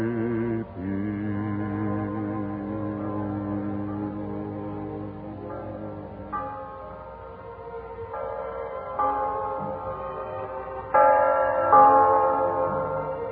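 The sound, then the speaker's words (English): Church bells ring for Christmas 1945, their tones sustained and overlapping as a continuous, moderately loud peal that shifts pitch in steps and swells near the end, with no voices. “Hear that? The bells of Christmas 1945 ring out clear and free around the world to you. Listen to them.”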